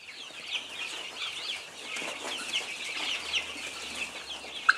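Chicks cluck and peep while feeding on scattered feed and shell limestone. Many small, high calls overlap in a busy, continuous chatter at moderate level, and one sharper call stands out near the end.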